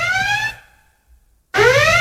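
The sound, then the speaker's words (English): A siren-style alarm sound effect of loud, wailing tones that sweep upward and repeat. It sounds alone, cuts off partway, then resumes after about a second of silence. “So this is the Heavy Kevy alarm.”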